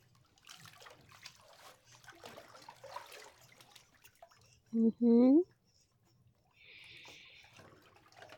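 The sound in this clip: Water trickles and sprays briefly, with a soft hiss, as something is wetted before scrubbing. A person speaks quietly before it, and a short voiced sound comes just ahead of the water.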